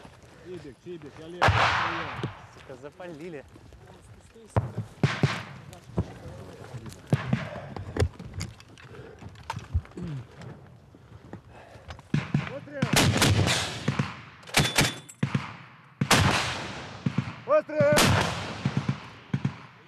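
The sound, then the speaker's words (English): Gunfire from soldiers shooting back during street fighting in Bakhmut: many sharp shots and rapid bursts arrive in irregular clusters, loudest in the second half, with people talking between them. “So we're gonna shoot back right now. Try to kill some of them.”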